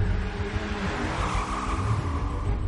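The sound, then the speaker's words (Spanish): Engine of a red car driving down a circular ramp: a steady low rumble with a rising, revving whine that holds for the whole stretch without a break. “El coche rojo baja por una rampa circular.”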